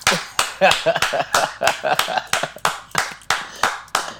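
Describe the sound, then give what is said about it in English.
A round of applause given as praise, with sharp claps in a quick, fairly regular rhythm and talk mixed in among them. “This woman needs a round of applause.”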